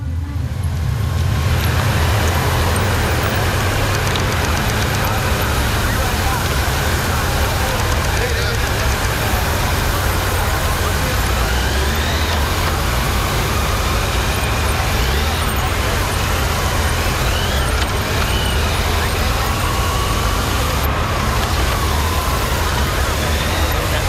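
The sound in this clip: Continuous loud engine and traffic roar as police escort motorcycles lead a motorcade of official vehicles through a turn in Vietnam, a dense steady wash of noise that barely changes over the whole stretch.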